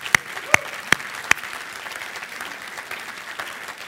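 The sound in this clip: Church audience applause welcoming a new next generation director: four sharp, loud claps spaced evenly in the first second and a half, then faint, scattered clapping and a low crowd murmur.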